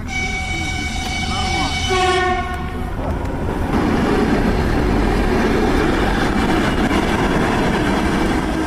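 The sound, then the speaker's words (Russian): A reserve electric train departs from the second track. A sustained horn-like tone sounds for about two seconds, then gives way to a loud, steady rolling rumble from the moving train. “По второму пути отправляется резервный электропоезд.”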